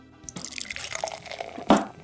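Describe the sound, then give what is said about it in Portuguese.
Water is poured to drink, a soft splashy trickle of liquid running into a vessel, faint and continuous, with a brief louder splash near the end. “Deixa eu molhar a garganta aqui.”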